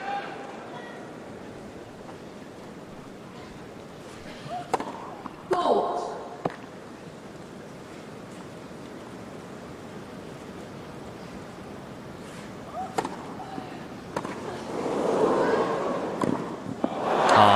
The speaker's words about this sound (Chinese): 行进间的这个正手，当然了，这一分呢，感觉穆霍娃的接发球没有接得很准啊，所以这个球过网以后比较近，比较贴网，也有一些不太规则的弹跳。